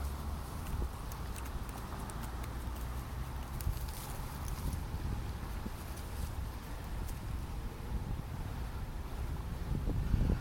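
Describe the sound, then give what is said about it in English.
Wind blowing on a breezy day outdoors, heard as a continuous low buffeting rumble on the microphone with faint scattered rustles and ticks throughout. “Very breezy out here.”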